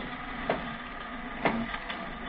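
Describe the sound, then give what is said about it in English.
A punched card sorting machine sorts cards with a low, steady mechanical whir, broken by a few sharp clacks, all fairly faint. “We'll set the machine here and let it sort the cards.”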